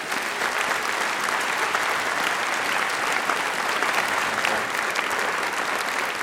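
Dense, steady audience applause welcomes a guest onto the stage. The clapping stays continuous and even in loudness from start to finish, with no voices rising above it.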